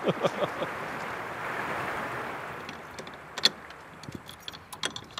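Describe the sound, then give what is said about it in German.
Keys jangle and click in the lock of a lime kiln door. A few sharp metallic rattles and clicks sit over a soft, steady rushing background. “Das Schloss des Kalkofens öffnet sich.”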